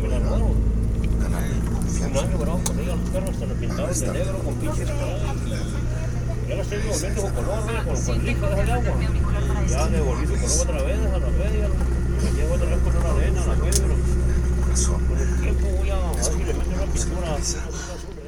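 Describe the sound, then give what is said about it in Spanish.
Steady engine drone and low rumble inside a bus travelling from the city of Chihuahua to the small town of Creel in Mexico. The sound stays continuous and even throughout, with muffled voices in the background. “que escuchen un poco de lo que escuchamos nosotros en el primer autobús que tomamos de la ciudad de Chihuahua hacia el pueblecito mágico de Creel. Así se escuchaba ese autobús en el que viajábamos.”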